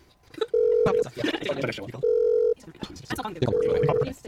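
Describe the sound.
Ringback tone of a telephone call that goes unanswered: three short, steady electronic tones at even intervals, with people talking over and between them.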